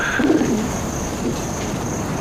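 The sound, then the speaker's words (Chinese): An injured pigeon with a hurt leg gives a soft, low coo early on, faint against a steady hiss. “这也不知哪来了一只鸽子，腿受伤了，怎么还是养着它吧？”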